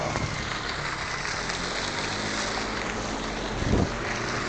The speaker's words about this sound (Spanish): El ruido del agua. El agua entra dentro.